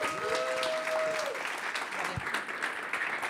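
A church audience applauding to welcome a pastor at a morning service: dense, steady clapping from many hands that holds at an even level throughout, with a few faint tonal traces early on.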